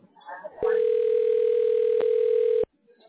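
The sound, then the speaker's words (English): A steady telephone dial tone sounds on a call to a business's general voicemail line. It is loud and unbroken for about two seconds at a single pitch, with brief faint sounds just before and after. “Dialing.”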